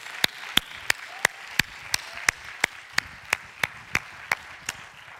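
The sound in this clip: A church audience in Fairfax claps in welcome for a guest speaker. Many sharp claps fall in a steady, evenly spaced rhythm, with no voices.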